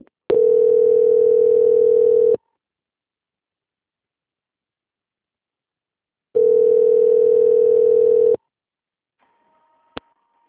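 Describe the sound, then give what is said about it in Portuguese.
Telephone line tone while a bank call is transferred: two loud, steady beeps of about two seconds each, separated by a long silence, then a short click. “aguarde em linha que eu vou transferir o contato para o controle de qualidade que vai fazer as confirmações de valores”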